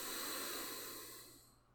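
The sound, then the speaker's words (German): A soft, airy exhale through the right nostril during alternate nostril breathing, a faint breathy hiss that gradually fades away with no talk over it. “Wechsel mit dem Daumen, rechts ausatmen.”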